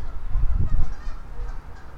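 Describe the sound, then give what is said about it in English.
Geese honking out on an island, a string of low, nasal calls that overlap and come in irregular bursts, loud at first and then trailing off. “We got some geese.”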